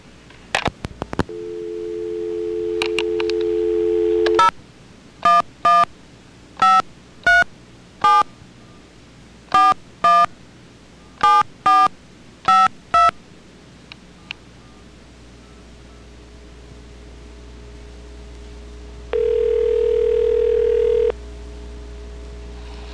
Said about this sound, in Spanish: Ok, vamos a repetir la llamada.